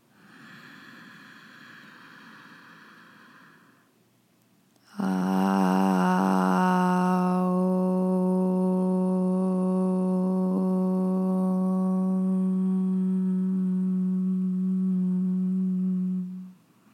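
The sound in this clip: A chanted Om closes with a humming mm. A breathy inhale comes first, then a low, steady voiced tone holds for about eleven seconds. Its vowel colour shifts early and settles into a sustained closing hum.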